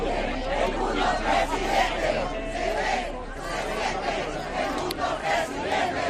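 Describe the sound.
Hundreds of Venezuelans shout and chant in protest at Plaza de las Cortes outside the Congress, a dense mass of overlapping voices with rhythmic chanted phrases over steady crowd babble.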